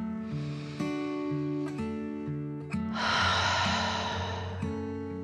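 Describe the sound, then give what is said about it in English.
A deep breath drawn in and let out, heard as a soft, breathy rush in the second half, set against gentle melodic tones that play throughout. “took another dragon breath in and out.”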